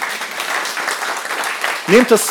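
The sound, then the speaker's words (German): Audience applause, a steady wash of clapping from many hands, with a voice briefly speaking near the end. “Ich danke dir, Rieke, einen großen Applaus für dich.”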